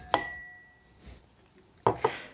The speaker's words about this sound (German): Zwei Gläser im Dreivierteltakt.